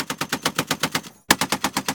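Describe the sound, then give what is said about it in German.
Rapid automatic gunfire on a militarised front line with trenches in the Donbas despite a ceasefire: a loud, steady stream of shots with a brief pause before the firing resumes. “Ein militarisierter Streifen mit Gräben und einer heißen Grenze besteht dort bis heute. Denn trotz einem Waffenstillstand wird noch immer geschossen.”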